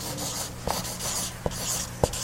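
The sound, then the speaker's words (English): Handwriting, a pen scratching across a surface in a continuous rough rubbing, broken by a few sharper ticks as strokes start and end; no voices. “So there are three, I'm just going to write innocents suffer.”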